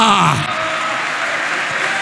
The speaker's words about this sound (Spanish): De nuevo el aplauso al que vive para siempre.